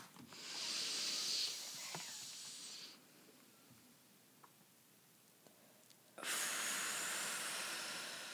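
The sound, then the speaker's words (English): A deep breath in, then a pause of about three seconds, then a long breath out: soft, airy hiss lasting a few seconds each way, heard alone with no talk. “we're going to do a deep inhale, hold it at the top, and then okay. exhale.”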